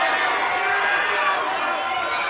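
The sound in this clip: A crowd at a poker tournament roars as the turn card, a 10, is dealt. The dense, steady wall of shouting and excited voices holds at an even, loud level throughout.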